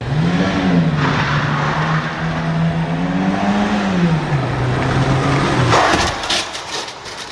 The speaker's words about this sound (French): ce que vous venez d'entendre, c'est le son de l'impact d'une petite voiture de ville lancée à seulement 50 km/h